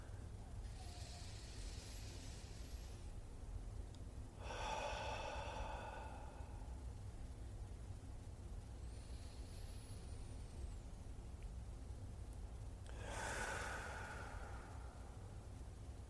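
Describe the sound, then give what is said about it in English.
A few slow, deep breaths taken during a seated grounding exercise, soft airy hisses several seconds apart, the middle and final ones fuller and louder, over a quiet, steady background. “And we're going to just take some nice, deep, glorious breaths.”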